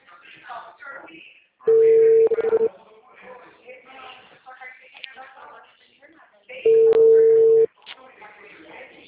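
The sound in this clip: A telephone busy tone follows a dropped call: two steady, loud, low-pitched bursts of about a second each, several seconds apart, with people talking before, between and after them.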